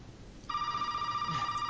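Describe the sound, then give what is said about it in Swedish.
A mobile phone rings with an electronic ringtone: after a quiet start, a steady, bright tone begins and continues to the end at a moderate level, with no talk. “Min telefon ringer, som ni hör.”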